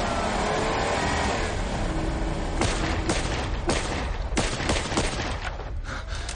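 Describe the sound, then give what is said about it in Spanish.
Gunfire aimed at jeeps speeding away in a thriller scene: roaring vehicle engines dominate at first, then a series of sharp, spaced gunshots cracks out over the continuing engine rumble. “sale de su escondite y dispara a los jeeps que se alejan a toda velocidad de allí.”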